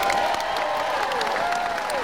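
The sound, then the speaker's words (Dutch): Applause from a theatre audience at the close of a final musical performance, a steady dense wash of clapping with cheering voices mixed in, loud and continuous throughout. “Dank voor het laatste applaus.”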